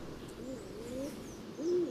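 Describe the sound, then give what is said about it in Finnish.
Soft, low cooing of a stock dove, a couple of short hollow notes with the last one longer and clearer, faint over a quiet background hiss. “Viikon luontoäänen eli uuttukyyhkyn elämästä kertoi näin Juha Laaksonen.”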